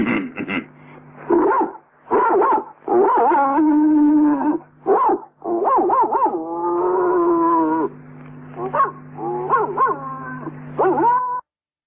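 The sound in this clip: A dog howling and barking from across town: a series of drawn-out, wavering howls and whines broken by short, sharp yelps. The calls are loud and tonal, with brief gaps between them.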